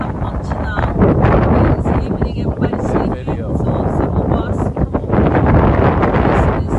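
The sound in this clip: Wind buffets the microphone outdoors near a market below a mountain in Cambodia, a loud, steady roar of rough noise that surges and dips briefly before swelling again.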